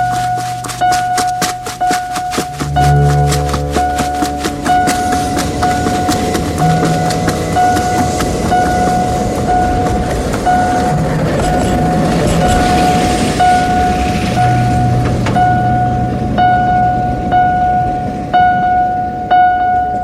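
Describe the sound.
A tram runs with a continuous loud rumble and a steady high whine that hold for about twenty seconds, with some rattling and clatter.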